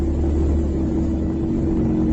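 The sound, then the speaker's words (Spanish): Military vehicles advancing toward Kharkiv produce a loud, steady engine rumble with a constant low drone and no distinct breaks. “Son los carros militares avanzando en este caso sobre Kharkov”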